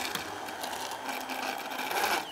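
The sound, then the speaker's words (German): An immersion blender mixing butter into a sauce, giving a steady buzzing motor whir with a gritty churning texture, continuous and without talk. “du machst das jetzt mit dem Pürierstab, mixst du die einmal rein”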